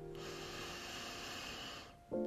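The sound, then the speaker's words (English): One long, deep breath, steady and breathy, holds for nearly two seconds at even loudness before fading, followed by a brief tonal sound. “I would encourage you to let your breath be heard, both on the inhale and on the exhale. Breathing in deep,”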